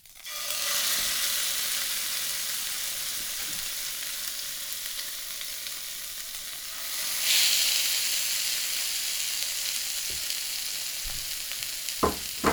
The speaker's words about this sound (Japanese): 油をひいたら焼きましょう。パテを入れて、